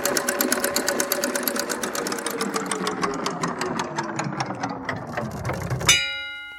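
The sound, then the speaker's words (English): A prize wheel spinning, a rapid run of ticking clicks that gradually slows, ending in a sharp final clack and a short ringing tone as it comes to rest. “Right, okay, here we go. Spin the wheel.”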